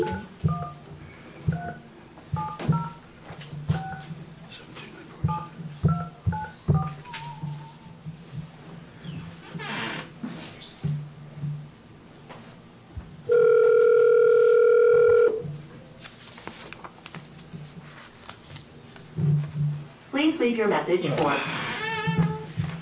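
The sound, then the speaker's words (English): A phone call is placed with keypad beeps and a steady dial tone of about two seconds near the middle. People talk through most of the stretch. “I'm going to try to call BOE 393 again on the first page, Table Rock Lodges”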